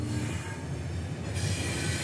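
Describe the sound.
A train runs on rails through the Sahara at no more than 50 km/h, making a steady, loud rumble of wheels with a high metallic squeal above it throughout. No voices are heard.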